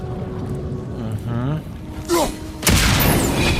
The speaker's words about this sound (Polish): A, tam jest bomba! Czekajcie, tam jest bomba. Trzeba pewnie tą bombę walnąć.